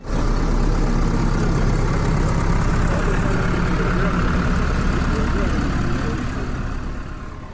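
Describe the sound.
Tractor engines rumble continuously as about a hundred tractors drive through the streets of Srbobran in a farmers' protest. The deep, loud, steady drone fades slightly at the very end.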